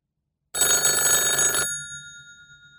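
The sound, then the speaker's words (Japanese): An electric telephone bell rings in one bright, rattling burst of about a second. It cuts off abruptly and leaves a short fading ring-out, with no voices. “電話です。 はい、そうです。電話です。”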